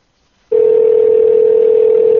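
A telephone dial tone sounds when calling back: half a second of silence, then a loud, steady, unbroken tone holds at one pitch to the end, with nothing else heard.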